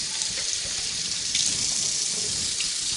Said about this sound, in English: And then wash the oil off your hands because we need your hands clean